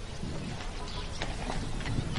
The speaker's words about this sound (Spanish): Que hay un chico con un caballo, ¿no?